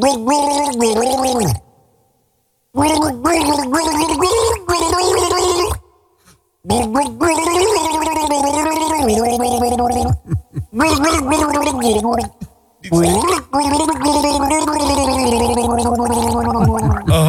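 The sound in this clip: A person gargles a tune, the water bubbling along a clear, wavering melody. The gargling runs in several loud phrases broken by short pauses, with the pitch rising and falling through each phrase.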